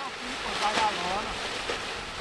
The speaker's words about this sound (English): As tribesmen struggle to erect makeshift tents in the wind